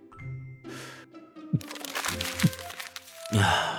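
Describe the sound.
Crumpled paper crinkles and crackles as a wrinkled paper flyer is unfolded and opened, in a few quiet, uneven bursts of rustling with soft crunches between them.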